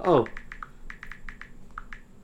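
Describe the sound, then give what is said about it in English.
Keys clatter as someone types on a computer keyboard, a quick uneven string of light clicks after a brief burst of voice at the start. “No, it's just taking me a while to type it.”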